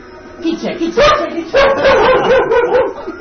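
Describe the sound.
A dog barks and yips, with short, sharp bursts and whimpering tones mixed among people talking over it.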